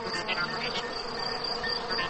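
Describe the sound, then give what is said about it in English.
Crickets chirp in a continuous, shrill, high-pitched insect trill that stays steady and fairly loud throughout, with no voices. “You can tell the temperature by how many times a cricket chirps in a minute.”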